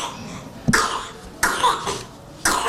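A baby with bronchiolitis coughing wetly with phlegm: four short harsh coughs spaced about a second apart, each a sudden gravelly burst with a raspy tail, moderately loud, no talk.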